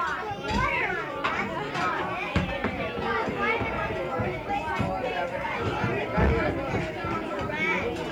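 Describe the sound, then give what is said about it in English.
Children at a summer camp in a 1958 archive recording, chattering, shouting and playing in a continuous lively hubbub of many young voices at a steady level. “In fact, what you're hearing now are the sounds of Camp Killileet.”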